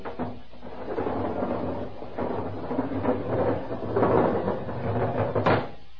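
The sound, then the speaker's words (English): A heavy airlock door behind a lead wall grinds open with low rumbling and scraping mechanical noise for several seconds, ending in a sharp metallic clank. “Ready, Colonel. Open the lock.”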